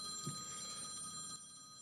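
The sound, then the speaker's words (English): A telephone bell rings faintly in the office of a timber and building supplies firm. The steady ringing drops away after about a second and a half. “Come on, Audrey, get that phone.”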